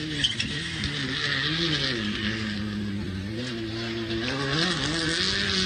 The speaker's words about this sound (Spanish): Ahí está, de fondo, el sonido de la máquina de Baldoni. Lo seguimos escuchando al puntano, así que acelera.